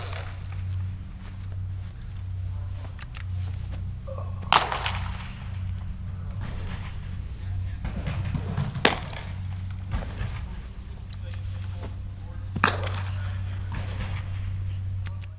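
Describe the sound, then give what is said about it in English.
Sharp pops of baseballs smacking into gloves as two pitchers play catch indoors: three loud, crisp cracks spaced several seconds apart, with fainter clicks and thuds between them over a steady low hum. “that was the sound of two of his pitchers playing catch indoors”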